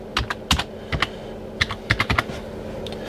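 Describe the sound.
Keys clacking on a computer keyboard as notes are typed, in short irregular bursts of crisp clicks separated by brief pauses, with no voices.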